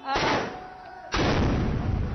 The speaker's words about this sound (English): Now they're firing big guns into that building. That's going to scare the people who are on top of the building.